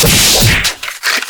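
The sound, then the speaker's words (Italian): A man slapping himself: a single sharp, whip-like smack that is loud and crisp, then quickly dies away. “Mi faccio lo schiaffo da solo.”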